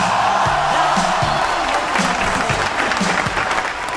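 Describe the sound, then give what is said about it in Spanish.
An audience applauding, a dense, steady roar of many hands clapping that stays loud and even across the whole stretch without fading. “A ver los aplausos.”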